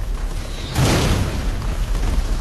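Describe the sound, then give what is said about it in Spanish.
An artillery shell passes overhead and explodes during a German attack on a Second World War Rhine defense line. A single heavy boom strikes partway through and leaves a dense rumble that lingers to the end. “Un proyectil pasa por encima de él”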